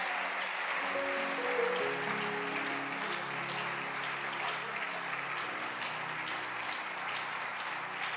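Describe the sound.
Sustained applause from a church audience for its bishops, a dense, steady wash of many hands clapping that holds at an even level for the full length with no pauses.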